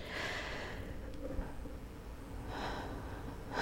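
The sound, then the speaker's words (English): A deep breath drawn in and let out, soft and airy, with a few breathy swells of hiss and no talking. “To take a deep breath so that I can get into it.”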